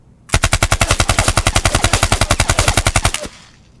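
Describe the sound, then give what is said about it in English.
Machine pistol fired in one full burst into a room: many rapid, evenly spaced loud shots in a continuous sharp rattle lasting about three seconds, then breaking off into a brief fading tail. “the girl has a machine pistol in her hand, and she opens fire in a full burst into the room.”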